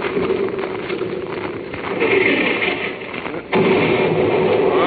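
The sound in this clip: Artillery shelling near a ship: a dense, continuous roar of blasts and low rumble that swells around the middle and then jumps sharply louder toward the end.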